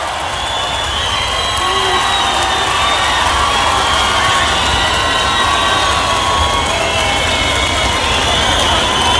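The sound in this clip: Audience cheering and applauding fills the whole stretch as a dense, unbroken roar of claps and shouts, steady and loud from start to finish, with no clear pauses or standout single sounds.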